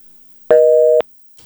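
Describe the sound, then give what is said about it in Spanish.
A telephone busy tone sounds after a dropped call: one steady electronic beep lasting about half a second, then a short silence before the next beep begins at the very end. “Se cayó la llamada.”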